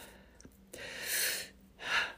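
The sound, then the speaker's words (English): A deep breath drawn in and released, with soft airy hissing in two swells and a brief quiet pause between them. The breath is fairly faint and no one speaks. “Phew, feels good to be able to take a deep breath.”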